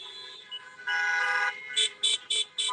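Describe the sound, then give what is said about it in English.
Car horns honk at a drive-in event at a fair in Miami: a brief toot, then a long sustained honk, followed by a few short, evenly spaced bursts of bright, nasal horn tone. “So please, let's give a warm honk for my good friend, George Cabrera of 3FEO Entertainment.”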